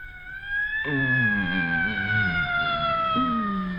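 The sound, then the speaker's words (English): A police siren wails outside as a loud, steady high tone that slowly glides downward. A lower wavering tone runs beneath it throughout. “What's all that noise outside? Oh, for heaven's sakes. I'll look out the window. Dear, it's the police.”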